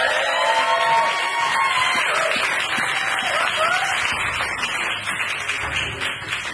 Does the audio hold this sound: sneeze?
no